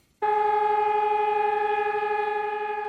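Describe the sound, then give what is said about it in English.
Sirens sounding in Warsaw for a ceremony marking the 80th anniversary of the start of the Warsaw Uprising: a loud, steady wail begins abruptly and holds one level pitch with strong harmonics, easing slightly near the end. “That is the sound of sirens to mark the 80th anniversary of the start of the Warsaw Uprising.”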